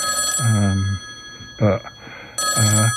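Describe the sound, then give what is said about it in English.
A mobile phone ringing, its ringtone sounding in repeated bursts over steady high tones, with a shorter burst between two longer ones. “So now my phone's ringing.”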